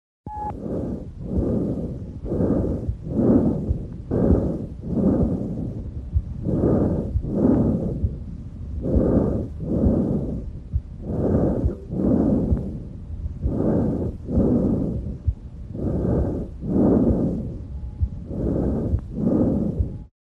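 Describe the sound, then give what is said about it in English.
Normal tracheal breath sounds over the trachea: loud, harsh, hollow rushing bursts on both inspiration and expiration, repeating in a steady even rhythm with only brief gaps between breaths throughout. “listen now to normal lung sounds heard over the trachea, called tracheal breath sounds. Note that these sounds are heard well on both inspiration and expiration, and they are higher pitched and much louder than normal sounds heard over the central thorax.”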